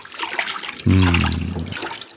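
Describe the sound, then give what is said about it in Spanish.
A diver plunges under the sea near a small island: a steady watery rush and hiss, then a louder, deep gurgling surge of water in the middle that fades back into the bubbling wash. “A bucear. Se sumerge.”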